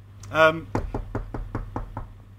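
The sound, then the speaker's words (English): Knocking on a door: a rapid, evenly spaced series of hard knocks follows a brief voiced sound, over a faint steady hum. “Somebody's at my door. I best That's go see who it is.”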